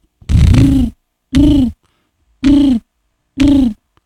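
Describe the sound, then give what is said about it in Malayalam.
A human voice imitates a jackal howling with four short, hollow hooting calls. They are evenly spaced and each is about half a second long and equally loud, with silence between them. “Kurukkan ഓലിയിടുന്നത്.”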